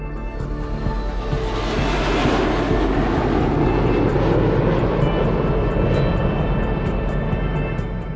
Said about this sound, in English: Every edge of the wing creates turbulence during flight. Miniature whirlwinds behind the wing caused by the turbulence produce noise.